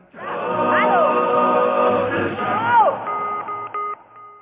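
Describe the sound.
Phone keypad DTMF tones entering a test code: a few short, steady beeps near the end, each holding a fixed pitch, following a louder stretch of continuous tonal sound.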